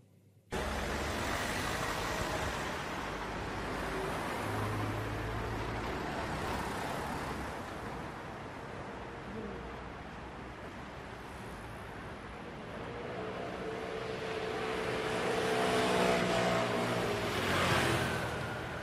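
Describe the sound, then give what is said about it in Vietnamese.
Continuous traffic and engine noise as a car drives out of a noisy, bustling city with long lines of vehicles; a steady, broad rumble swells somewhat louder toward the end. “Chiếc xe lăn bánh rời khỏi thành phố ồn ào náo nhiệt.”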